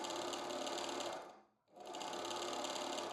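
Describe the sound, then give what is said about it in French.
A sewing machine rattles steadily at a fast, even rate. It dips briefly to quiet near the middle, then resumes at full, constant volume. “La machine à coudre pétarade.”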